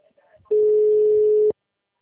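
A telephone tone after a dropped call: one steady, low-pitched, loud hum lasting about a second, preceded by faint, brief sounds and ending abruptly in silence.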